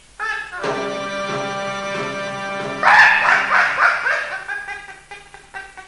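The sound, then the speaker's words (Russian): A hunting dog on a hare hunt barks and yelps without pause. A long, drawn-out, howl-like cry gives way to a burst of loud, choppy, rapid barks that fade toward the end. “Этот пес мешает мне охотиться! Замолчи!”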